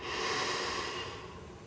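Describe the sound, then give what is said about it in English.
A slow breath drawn in through the nose, heard alone as a soft, steady, airy rush that lasts under two seconds and thins slightly toward the end. “invite you to begin breathing in and out through your nose. So let's take a slow breath in”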